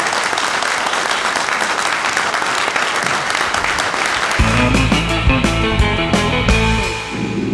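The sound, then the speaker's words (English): An audience at the Monster Bash convention claps and cheers for filmmaker Bert I. Gordon, a loud, dense wash of applause that carries on as music starts underneath it about halfway through. “Bert, it is a pleasure to have you here at Monster Bash. Let's hear it for Bert I. Gordon.”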